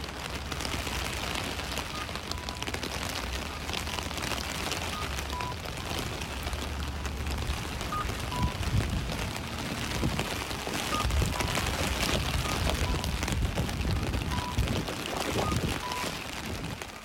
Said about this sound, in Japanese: 今聞いていただいたのが一般的な傘で、まあ、かなりね雨が降っている状況が分かるくらい、はい、この傘に打ちつける音というのがもう聞こえて